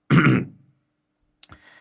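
A man clears his throat once after sitting down with a cup of tea: a rough, gravelly burst that trails off. After a short silence come a few faint, brief sounds.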